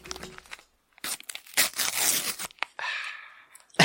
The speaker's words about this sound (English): Just the single episode, a single packet even this week, or today even. Yep. I'm going to open it.